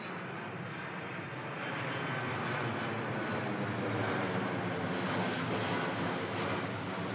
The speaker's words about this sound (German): er fliegt jetzt von Tegel nach Frankfurt